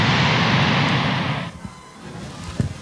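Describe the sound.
A jet airliner with high thrust-to-weight roars through its takeoff run, a loud broad rushing roar that drops away sharply partway through, leaving a quieter low rumble.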